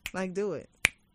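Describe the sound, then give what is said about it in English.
A single sharp finger snap cracks between stretches of casual speech. It is brief and crisp, with people talking just before and just after it. “it's not your fingers that make the sound. It's the sound of your finger hitting your palm.”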